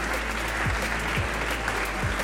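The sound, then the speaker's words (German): Studio audience applause on a quiz show, a continuous, even wash of many hands clapping with a few soft low thumps underneath. “Stimmt, Applaus für euch. Sensationell.”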